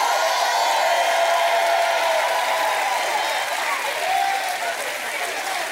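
Applause and cheering from a church audience during a worship service, a loud, steady wash of clapping with cheers that holds through the whole stretch and eases only slightly near the end.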